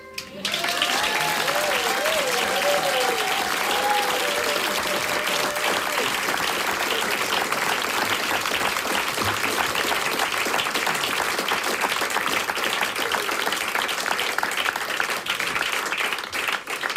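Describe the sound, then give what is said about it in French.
An audience applauds a guest introduced on a radio show, with thick, continuous clapping that stays loud and even for the whole stretch and never fades. “Exclusive et sous vos applaudissements, Jean-Luc Mélenchon.”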